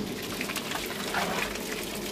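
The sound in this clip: Steady rushing of water filling the mash tun as a pale ale is mashed in at a small brewery in a converted shed, a continuous even gush with faint bubbling.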